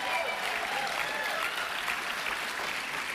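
Applause and cheering from an audience at a morning service, a loud, steady wash of clapping and crowd noise that holds evenly for about three seconds.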